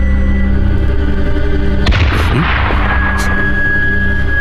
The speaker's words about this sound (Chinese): 听见了吧？这是宪兵队的军车被炸了，这也是给那三个无辜死难者的陪葬。